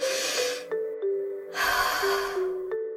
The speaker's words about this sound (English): And now I'm going to open my eyes and take a deep breath.